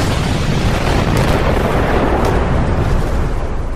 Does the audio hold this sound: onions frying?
no